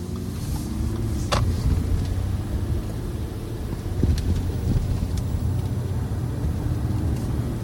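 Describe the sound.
Steady road noise from a car driving through Quebec's eastern townships: a constant low rumble with wind noise, unbroken and without talk.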